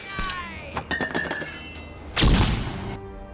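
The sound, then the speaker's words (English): A grenade explosion sound effect from a film: a few brief tonal and thudding sounds, then a sudden loud, noisy blast that holds briefly and cuts off abruptly. “You want some? Alright, throwing a grenade!”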